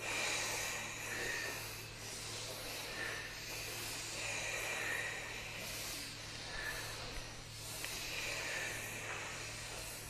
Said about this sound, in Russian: Дышим, дышим, дышим, дышим.